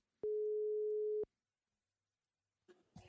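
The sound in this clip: A single steady telephone ringing tone sounds once for about a second as a call is placed, followed by silence before a voice briefly starts to speak.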